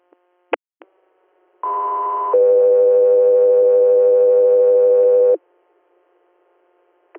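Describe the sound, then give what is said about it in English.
Radio dispatch alert tones for an air unit: a couple of short clicks, then a steady higher tone lasting under a second that drops straight into a lower steady tone held for about three seconds, followed by silence. “Go through here, stand by for tones.”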